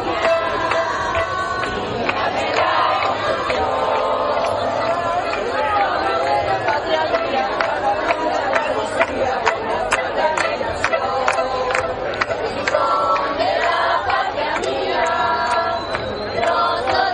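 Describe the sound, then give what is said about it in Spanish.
Crowd voices at the Gibraltar border fence, heard from the La Línea side as people join in their anthem. Many voices blend into a steady, moderately loud din with scattered sharp sounds throughout. “De hecho, la primera sección la derribó Fabián Picardo, el ministro principal de Gibraltar, mientras que desde el lado de la línea se escuchaba a la gente corear su himno.”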